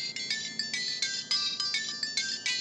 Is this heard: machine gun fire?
no